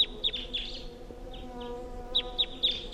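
A wild crossbill calls from the top of a tall pine, giving short, high chip notes in small clusters. The calls are faint and repeat over a low, steady background hum.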